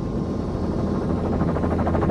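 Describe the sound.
Helicopters circle and come in to land about 50 yards from a bear in open country, a loud, steady rotor and engine drone with a slight rhythmic throb, running without voices.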